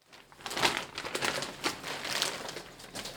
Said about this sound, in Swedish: när han packar upp diplomet till vinnaren